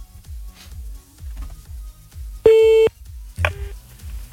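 Telephone tones sound while a call is placed again: a loud, steady electronic beep holds for about half a second, then a shorter, fainter beep follows.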